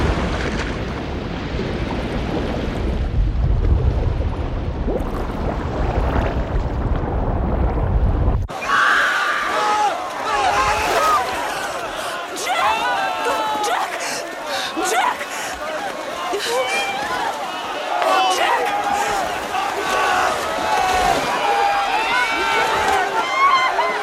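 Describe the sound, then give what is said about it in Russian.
Crowd of drowning people screaming and thrashing in dark water in a scene from the film Titanic, after the ship goes down: a deep, heavy rumbling roar gives way abruptly to many overlapping wailing, shrieking voices above churning noise. “В кадре толпа тонущих людей, взбивающих руками в пену черную воду.”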